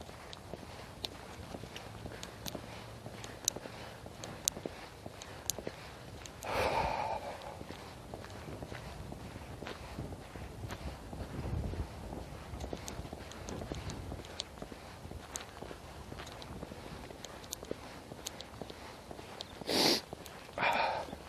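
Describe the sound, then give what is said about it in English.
A few short, breathy snorts burst out loudly against a quiet background of faint rustling and scattered soft clicks, one snort alone early on and two more close together near the end. “Snort.”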